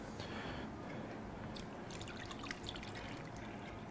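Water is poured into a pot of potatoes, a soft, continuous trickling and splashing with light drips, faint and steady throughout.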